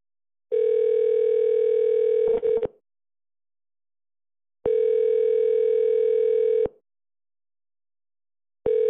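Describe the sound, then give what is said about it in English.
Telephone ringback tone plays while an internet voice-service call connects: two steady, level-pitched tones of about two seconds each, separated by silent gaps, with a third tone starting at the end. “Tone, and Google Voice will try to connect you.”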